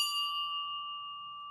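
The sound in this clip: A small church bell rings out with a clear, high, sustained tone that lingers and slowly fades, heard alone.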